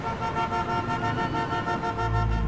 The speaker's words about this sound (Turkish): Geçişler kapatıldı, trafik durdu. Araçlar sıkıştı, korna sesleri arttı.